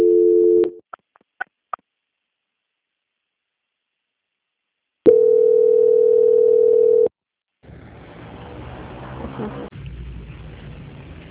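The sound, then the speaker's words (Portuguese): Telephone line tones during a bank call transfer: a steady tone, a few short beeps, then silence. A longer steady tone follows, giving way to low line hiss, with no voices. “peço que a senhora aguarde linha, que eu vou transferir a ligação para o setor de qualidade”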